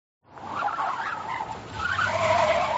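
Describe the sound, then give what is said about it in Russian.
A grey BMW speeds past in the oncoming lane, its engine noise swelling as it rushes by, with a tire-squeal tone toward the end. “Истерично сигналя, выскочив на встречную полосу, мимо пронесся серый БМВ.”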